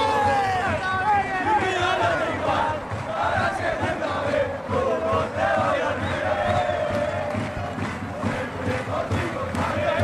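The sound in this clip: Football players singing and chanting together in celebration, a loud, continuous chorus of many voices with shouts mixed in, holding steady throughout.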